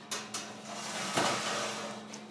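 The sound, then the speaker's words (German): Faint clinks as a plate is set on top of a dish of stuffed onions topped with breadcrumbs before baking, a few light knocks followed by a broader clatter midway over a steady low hum. “Den Teller hier drauf.”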